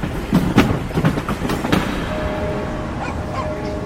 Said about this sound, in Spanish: Cuando entremos en ese túnel con el tren, parpadee tres veces.